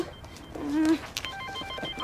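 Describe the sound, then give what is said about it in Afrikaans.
A mobile phone rings with an incoming call: a short, faint tonal ring with a few harmonics, lasting under half a second, over soft background noise. “Oh, iemand bel my. Nou antwoord.”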